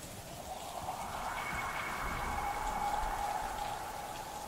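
Wind and rain gusting in through a house door just opened, a dense, steady hiss of rainfall at even loudness throughout, with a faint whistling tone rising briefly in the middle.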